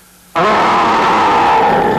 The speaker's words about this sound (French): Et fais un terrible grognement d'ours.